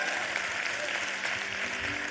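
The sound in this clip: A church audience applauding to welcome viewers at an Easter service, a dense, even wash of clapping that stays level from start to finish.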